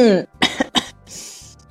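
Three short, sharp coughs follow a brief voiced sound, in a quick uneven burst, then a soft breathy exhale trails off. The coughs are loud and clear, with no talk over them.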